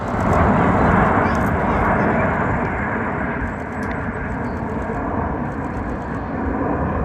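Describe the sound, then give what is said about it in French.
A formation of Alpha Jet military jets roars across the New York sky in a broad, heavy rumble, loudest at the start, easing slightly midway, then holding steady to the end. “Ce que vous entendez là, c'est la patrouille de France qui était dans le ciel new-yorkais tout à l'heure, Liberté 250.”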